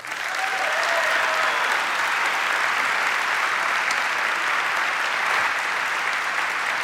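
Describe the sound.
Audience applause welcomes a speaker at Grace Chapel: a dense, steady wash of many hands clapping, loud and even from start to finish.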